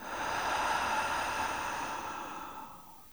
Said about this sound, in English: Breathe in deep. And let it out.